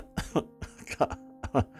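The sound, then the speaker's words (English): Several short coughs from one person, faint, with brief gaps between the bursts. “I'm coughing because that makes me feel really old.”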